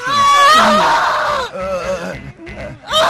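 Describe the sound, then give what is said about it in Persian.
A woman screaming: loud, high-pitched, wavering cries in a few bursts separated by short breaks, with no clear words. “اینجا چه خبری؟ کیه داره فریاد میزنه؟ این صدای خانومه.”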